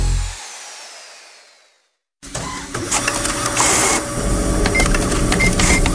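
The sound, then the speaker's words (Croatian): A printer runs with a steady mechanical whirr and dense clattering, starting abruptly after a brief quiet gap and continuing loud to the end. “Izgleda da je tvoj printer odlučio uzeti slobodan dan.”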